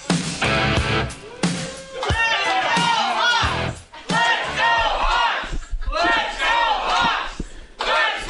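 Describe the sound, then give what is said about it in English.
A loud, rowdy crowd of Hawkeye fans cheers and shouts in a sports bar, with many overlapping voices sustained throughout and brief dips between bursts of yelling. “We got a good, loud, rowdy group here.”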